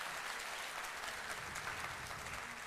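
Audience applause welcoming ambassadors at a ceremony, a steady, dense wash of many hands clapping that carries on evenly without a break.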